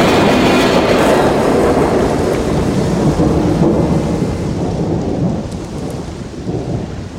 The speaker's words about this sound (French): Quelle tempête! Cela fait bien une demi-heure que je suis sur ce balcon, mais ça n'a pas l'air de vouloir s'arrêter.